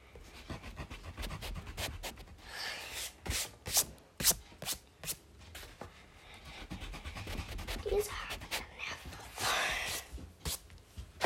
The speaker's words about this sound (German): noch so ein paar Haare, die voll nerven. Die radiere ich kurz weg und mache die kürzer.